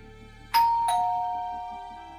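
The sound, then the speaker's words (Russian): A two-tone ding-dong doorbell: a bright chime and then a slightly lower second chime, ringing on and slowly fading, with no voices. “«Кто-то звонит в дверь», – объявила Луиза, выглядывая сквозь входную дверь.”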